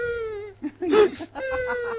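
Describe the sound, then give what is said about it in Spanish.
A person cries without tears, giving whimpering, wavering vocal sobs with a brief, louder breathy burst in the middle before the whine resumes. “¿Estás llorando? Sí. ¿Y dónde están las lágrimas? Es que ya no tengo.”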